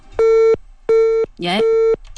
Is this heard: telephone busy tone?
yes